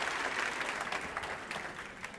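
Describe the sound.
Audience applause greeting a speaker walking onto the stage at a Commonwealth Club event in Silicon Valley: dense, steady clapping from a crowd, heard alone and fairly faint throughout.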